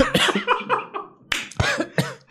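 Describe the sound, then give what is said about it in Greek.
Harsh coughing after choking: a fast, rasping run of coughs, a short pause, then a few louder, sharper coughs. “Συγγνώμη, πνίγηκα.”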